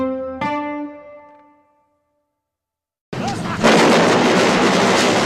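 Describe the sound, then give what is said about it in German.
Militia gunfire among the burning war ruins of Beirut during the Lebanese civil war. A chime rings and fades, silence follows, then a dense, loud, sustained roar of shots and blasts bursts in abruptly. “Ein Mann läuft durch die Kriegsruinen von Beirut. Die Stadt steht in Flammen, Milizen schießen aufeinander.”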